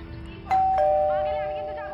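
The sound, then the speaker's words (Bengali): A home doorbell sounds a two-tone ding-dong: two bright chimes struck in quick succession, then ringing on and slowly fading over a low steady hum. “Calling bell বাজতে আমি দরজা খুলে দেখলাম”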